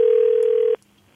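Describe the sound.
A single steady ringback tone on an outgoing telephone call, an even mid-pitched beep lasting under a second that cuts off abruptly into near silence.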